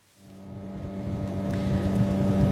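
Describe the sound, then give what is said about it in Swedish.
A boat engine drones on the Patía river in southern Colombia, near Tumaco, a steady low hum that fades in and slowly grows louder, with no talk. “Nu åker jag på floden Patía i södra Colombia, nära kuststaden Tumaco.”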